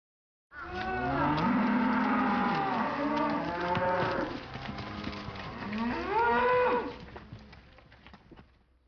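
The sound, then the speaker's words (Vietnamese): A cow mooing in two long, loud, drawn-out calls, the first sustained for several seconds and the second swelling before it tails off, with no other sounds. “Đây là tiếng bò kêu, trong tiếng Nhật được diễn tả bằng từ もも.”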